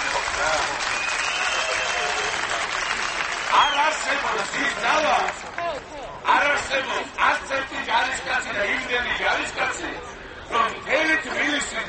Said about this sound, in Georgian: ტელევიზიის შენობის წინ თამოყრილი საზოგადოება ოვაციით შეხვდა ოპოზიციის ერთ-ერთ ლიდერს ლევან გაჩეჩილაძეს.